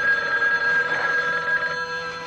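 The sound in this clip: A telephone rings with a steady, continuous electronic tone that holds at an even level under a dense background, with no talk.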